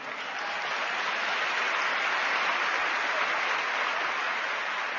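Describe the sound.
Audience applause at a live stage program: a dense, even wash of many hands clapping that holds a steady level throughout, with no voices standing out.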